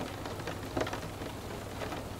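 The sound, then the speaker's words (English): Rain and wind make a steady, even hiss of falling water with no distinct drops standing out, holding at a constant moderate level throughout. “Sense the swirls of rain and wind, cleansing you into a more peaceful state.”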